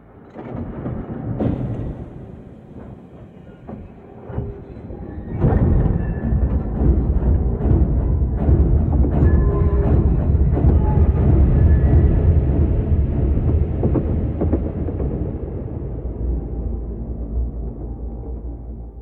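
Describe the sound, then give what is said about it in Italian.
Low rumble of a littorina railcar crossing the countryside between Capaci and Cinisi on single track at night. A quiet murmur swells abruptly after a few seconds into a loud, steady roar that holds to the end and eases slightly. “Una littorina attraversa la campagna tra capaci e cinisi. Binario unico. Intorno è notte fonda.”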